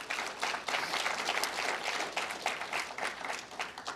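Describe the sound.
Audience applause welcoming two senators to an event on the opioid crisis: continuous, fairly loud clapping with a busy, uneven texture of many overlapping hands that holds steady for the whole stretch.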